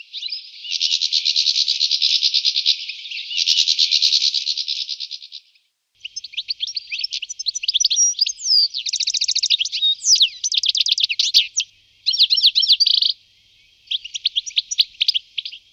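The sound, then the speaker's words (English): A goldfinch sings continuously, mixing a tinkling cascade of bright high notes with harsh buzzing phrases. The bird is loud and alone, with only a short pause partway through. “Goldfinches mix a tinkling cascade of golden notes with a harsh buzzing.”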